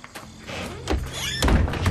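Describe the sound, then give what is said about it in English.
A motel room door is slammed shut, followed by the door chain being put on. It sounds like a quick pair of dull thuds and rattles over a low rumble, with the noise swelling slightly toward the end. “slams the door and puts the chain on”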